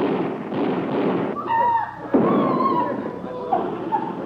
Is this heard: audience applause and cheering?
no